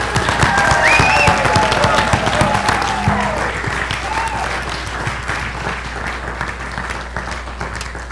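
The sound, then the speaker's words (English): Sustained, dense applause from a church audience welcoming a man who has become a new American citizen, a steady wash of many hands clapping that eases slightly toward the end. “let's give him a roaring applause, thanking him and welcoming him by faith, not only as an American citizen, but giving appreciation to God for the advancement of the kingdom of God in his life and as ours, okay? Welcome him.”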